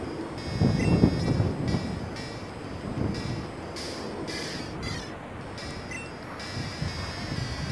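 Rushing wind effect of the Whirlwind attack in a Pokémon video game, a steady breathy whoosh that fills the whole stretch over faint high game tones.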